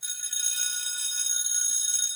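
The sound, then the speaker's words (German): Bell ringing with a bright, sustained high tone that holds steady for about two seconds, heard alone without other sounds. “Ich mach die Klingel”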